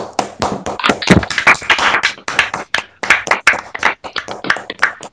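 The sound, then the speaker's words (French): A few people clap to welcome a guest, a fairly loud run of many distinct, sharp hand claps in an uneven rhythm with brief gaps between bursts. “On l'accueille en applaudissant.”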